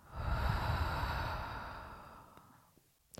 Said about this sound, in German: Wenn du möchtest und es dir möglich ist, atmen wir gemeinsam ein und aus. Einatmen. Ausatmen.